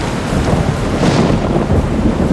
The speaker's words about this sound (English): Choose a move, thunderstorm, electric, special effect points 20.